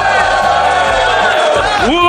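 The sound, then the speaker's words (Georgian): Crowd of party members cheering in ovation at a party office, celebrating Georgia's EU candidate status: a loud, continuous roar of whoops and shouting voices holds throughout and swells slightly at the end. “მოვისმინოთ ოვაციები პარტიის ოფისიდან.”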